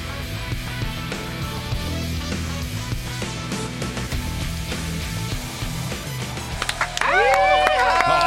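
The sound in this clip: A show intro jingle starts at the press of a button: a steady musical bed, then bright, swooping tonal notes that burst in loudly near the end, with voices mixed in.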